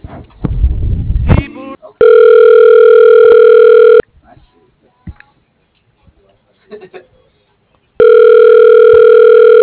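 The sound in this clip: Ringback tone on a phone line as a call is transferred to voicemail: two long, steady electronic tone bursts of about two seconds each, separated by a pause, after a short stretch of talk at the start.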